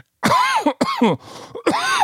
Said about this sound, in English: that was good until I started coughing